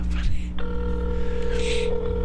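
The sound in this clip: A telephone call is dialed and starts ringing on the line. After a short beep, steady ringing tones hold while people talk over them.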